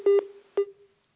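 Electronic telephone tones sound as a caller's line drops: two beeps at the same pitch, a longer one then a shorter one, with a faint tone lingering between and after them before silence.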